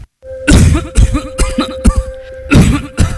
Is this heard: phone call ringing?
no